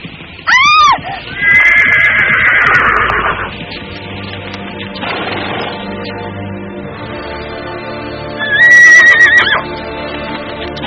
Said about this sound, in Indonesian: Kuda itu meringkik keras sebelum melompat tinggi ke udara.